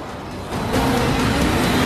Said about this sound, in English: she gets the engine to fire up. Driving erratically, she puts her foot down